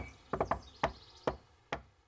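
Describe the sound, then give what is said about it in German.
Rhythmic knocking on a door: three quick knocks in a row, then three slower, evenly spaced raps. Each knock is sharp and fairly loud, with nothing else heard around them. “Sie klopfte den schönsten Rhythmus, den man nur klopfen kann.”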